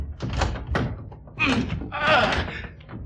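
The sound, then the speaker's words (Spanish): Dull thumps and rattling bursts as a door lock is forced open, a few uneven knocks and scraping jolts of varying loudness following one another. “¡Fuerce en la cerradura!”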